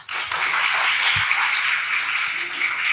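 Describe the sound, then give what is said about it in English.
An audience applauds to welcome a speaker to a session of the 2024 Evidence and Answers Apologetics Conference. The clapping is steady, dense and continuous from start to finish. “Please give a warm aloha welcome to Amy Davison.”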